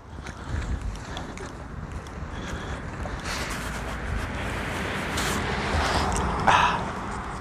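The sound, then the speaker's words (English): Sharp, cold wind at a temperature in the low 40s blows as a continuous rushing roar, swelling gradually and peaking briefly near the end. “That wind is sharp.”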